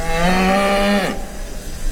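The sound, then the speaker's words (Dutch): Mother cow mooing for her calf, which has been taken away: a single long, low bellow held steady, then bending downward at the end, followed by faint background noise. “We luisteren eerst naar het universele geluid dat de moederkoe maakt die haar kalf roept, waarvan ze weet dat het nooit meer terug gaat komen.”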